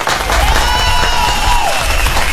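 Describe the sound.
Audience applause for a performer and his accompanying musicians, loud, continuous clapping from a crowd. Voices cheer and call out over the steady wash of hands.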